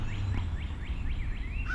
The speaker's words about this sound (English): Calls from American Crow.